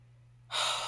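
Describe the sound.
A single deep breath drawn in halfway through, a loud airy rush that starts abruptly after a near-silent opening and holds steady to the end.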